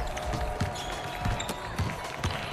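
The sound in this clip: A basketball bounces on a court while a team warms up. Several soft, dull thuds land at a loose, uneven rhythm over a quiet, busy background.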